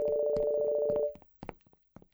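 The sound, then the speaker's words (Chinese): Mobile phone ringtone in an underground parking garage: a steady, even two-note tone for about a second, with a voice talking over it and continuing after the tone stops. “就在地下的停车场里，可心的手机响了”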